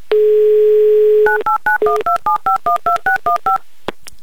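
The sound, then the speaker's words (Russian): A steady telephone dial tone, then a quick, even run of touch-tone key beeps as a call is dialed to a quiz-show contestant, with a short click at the end. “Звоним Сигаева, звоним Наталье, делаем это прямо сейчас.”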